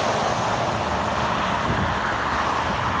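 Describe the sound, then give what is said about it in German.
Traffic noise while driving along a motorway hard shoulder: a loud, continuous rushing roar with a wind-like buffeting texture and no distinct separate events. “Das sind so die Geräusche, die wir den ganzen Tag hören, wenn wir auf dem Seitenstreifen der Autobahn fahren. So hört sich's an.”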